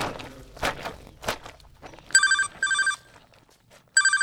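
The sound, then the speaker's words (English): Telephone ringing in bright, trilling bursts, two close together and then a third after a pause, following a few dull thumps. “Love that sound? Or loathe it? Whatever you think. One thing's for sure. That ring has changed our lives.”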